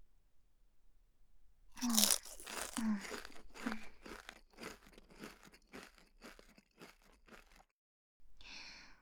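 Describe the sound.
Crunchy salad-flavoured snack being bitten and chewed, with loud crisp crunches followed by many rapid, brittle munching crackles that gradually soften, then a brief pause.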